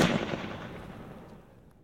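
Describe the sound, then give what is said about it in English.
A gunshot rings out through a crowd at a coronation: one sharp, loud bang that trails off into a long, fading, rumbling tail, with no other sounds over it. “As a gunshot rings out through the crowd, there is the sort of panic glance, people sort of checking around to see what happened.”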